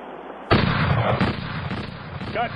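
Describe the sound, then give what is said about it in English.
A gunshot during target practice cracks out suddenly, followed by a sustained, harsh, noisy tail that stays loud to the end. “Okay, I heard more than one shot.”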